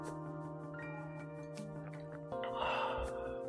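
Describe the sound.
Hot water being sipped, a short breathy slurp that rises over a steady tonal hum.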